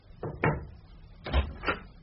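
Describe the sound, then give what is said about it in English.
A servant knocks at a door: four dull, muffled knocks in two pairs, moderately loud, with a quiet pause between the pairs. “one of the servants knocked at the door.”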